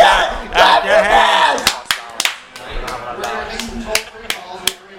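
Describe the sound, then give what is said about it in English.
Sharp claps and slaps from a group joining in an action song, landing in a loose, irregular series of crisp hits after an opening burst of loud singing or shouting voices that fades out. “they're clapping with their feet”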